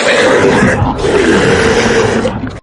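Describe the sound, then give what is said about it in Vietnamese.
A demon beast roars in a dense, loud, sustained growling bellow that carries steadily for about two and a half seconds before cutting off abruptly. “Trong tiếng yêu thú gầm gào, đám quân sĩ Ngân Giao Quân”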